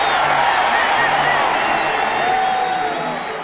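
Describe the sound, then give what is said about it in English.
Stadium crowd roars and cheers through the Rose Bowl as Antonio Perkins of the Oklahoma Sooners returns a punt 51 yards for a touchdown, a dense, steady wall of noise with a voice running over it. “We go with Antonio Perkins returning a punt for a touchdown in the Rose Bowl back on January the 1st,”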